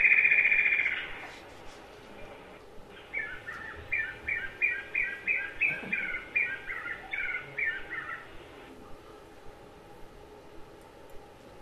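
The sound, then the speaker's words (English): Birds call from the forest canopy next to a high walkway made of aluminum ladders, plywood and cables. One bird gives a quick, steady run of many bright chirps at an even pitch over a low hiss. “And when you're up here, you're right with all the birds going through the canopies.”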